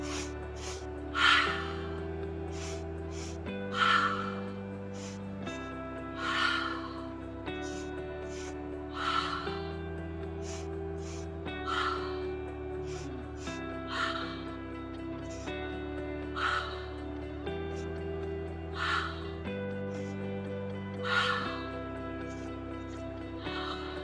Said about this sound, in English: We're going to start our second round of our fire breathing. So inhale fully, exhale fully, and here we go.